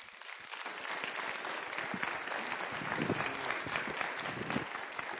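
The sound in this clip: Warm audience applause welcomes a guest preacher at a church New Year service. The clapping is thick and continuous and holds a steady loudness from start to finish.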